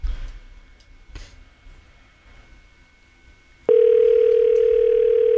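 A telephone ringing tone on an outgoing call cuts in abruptly after a stretch of faint background, then holds as a loud, steady single-pitched tone to the end.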